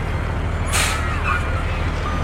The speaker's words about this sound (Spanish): un camión que transportaba mercancía aparcó muy próximo a los columpios para dejar bebida y alimentos en el bar cercano